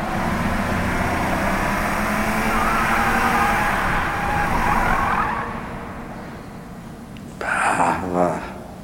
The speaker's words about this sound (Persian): محب توی اتوبان رانندگی میکنه.